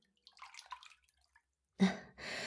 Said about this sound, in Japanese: まずはお湯を。